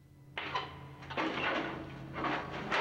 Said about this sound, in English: He slowly looks round as a guard slides the bars open.